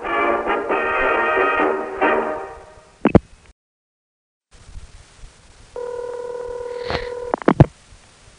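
Touch-tone dialing of a telephone number, heard as a steady dual-pitched keypad tone and several sharp clicks, following an earlier buzzy stretch and a short silence.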